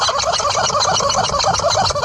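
A dog shakes a rubber chicken toy hard, driving a rapid, unbroken run of loud, strained squeaks and squeals that pulse many times over two seconds.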